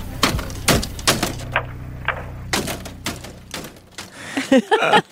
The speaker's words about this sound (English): That last sound you hear is a payphone circa 2008 being slammed repeatedly into the booth.